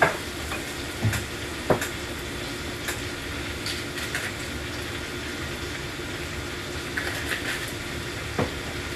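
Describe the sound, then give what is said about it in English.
Food sizzling in a hot pan in a home kitchen while being mixed, a steady low hiss with a few sharp clicks of a utensil against the pan. “And give that a nice little mix. Let all those flavors come together perfectly.”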